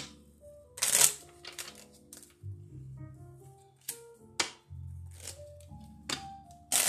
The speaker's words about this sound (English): Now, I don't know why that card popped out.